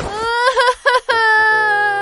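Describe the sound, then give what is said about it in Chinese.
A voice actor imitates a little fox character crying in a children's story: loud, high, wavering sobs broken into a few choppy bursts, then a long sustained whimpering wail. “哎，别哭别哭，我知道你家在哪儿了。”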